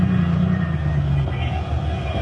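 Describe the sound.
A car engine runs with a low, steady rumble as the car pulls into a parking space, holding a constant drone for the whole moment.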